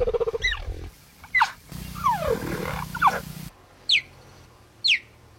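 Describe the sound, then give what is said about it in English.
A cheetah calls with several high, bird-like chirps that sweep downward, with a rougher buzzing growl in the middle and no roar; the calls are fairly loud with short gaps between them. “They're the only cat that doesn't roar. Here's what cheetahs. Here's the sound of a cheetah.”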